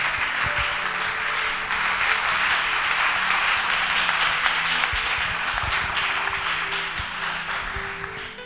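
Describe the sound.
Applause from an audience at a church healing-ministry gathering: dense, continuous clapping that stays loud and even throughout, with a few soft low thumps mixed in.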